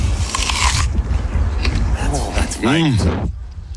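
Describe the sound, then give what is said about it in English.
A crunchy bite into a Honeycrisp apple gives crisp snapping, followed by a few chewing crunches, then a short voiced hum near the end. “So I thought I'd give you a live sound of me eating a Honey Crisp.”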